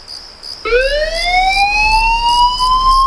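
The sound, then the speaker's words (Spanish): A fire engine siren from the Tenerife fire service starts with a wail that climbs sharply in pitch, then holds high and loud over a steady low rumble. “Suena un aviso. Alguien necesita ayuda en algún punto de la isla. Y mientras tú duermes tranquilo, Bomberos de Tenerife ya está en camino.”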